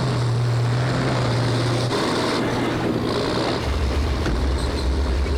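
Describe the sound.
A snowcat's engine runs as a steady, droning roar, its low hum shifting in tone a couple of times as it carries on without pause and with no voices.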